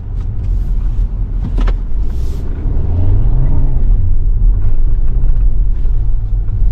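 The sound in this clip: A front-wheel-drive car drives over a bumpy road, producing a heavy, steady low rumble of road and engine noise. The noise grows louder partway through, with occasional knocks and thumps.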